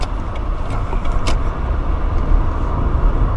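Road and engine rumble from a vehicle driving along, a broad, low roar that holds at an even, fairly loud level throughout.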